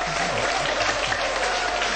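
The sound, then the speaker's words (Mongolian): Crowd applause at a gathering: loud, even clapping that holds steady without a pause across two seconds. “хүм бүрийн халуун дулаан зүрх сэтгэл хайр энергитэй алгачлалтаар үргэлжилж байгаад бид маш их баяртай байна.”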